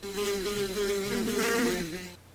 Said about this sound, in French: Quand j'ouvris la porte, ce fut un bourdonnement, un frémissement d'ailes, comme si j'entrais dans une ruche.